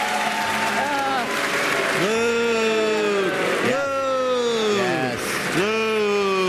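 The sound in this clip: Canned applause plays as a steady, dense wash of clapping for about six seconds, with loud cheering and whooping voices whose pitch swoops and arches over the top, cutting off briefly before several fresh bursts.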